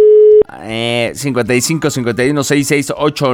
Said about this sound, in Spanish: Una llamada más, a ver quién anda por acá.